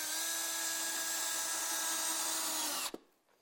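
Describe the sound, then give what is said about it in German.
A cordless screwdriver drives screws into a board with a steady, high-pitched motor whine that runs unbroken for about three seconds, then cuts off abruptly. “Habe ja Schrauben nur übrig. Einen Akkuschrauber habe ich auch.”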